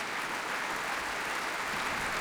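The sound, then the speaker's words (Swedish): Applause from a concert audience cheering an orchestra as the players stand. Dense, even clapping holds steady from start to finish, moderately soft and without breaks or voices. “Ja, det är applåder för alla.”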